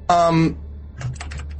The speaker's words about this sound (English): That feels impossible because you're just typing in the name of the thing, right?